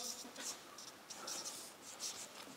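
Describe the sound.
A word is written on a board in faint, scratchy strokes, with a few short squeaky bursts separated by brief pauses.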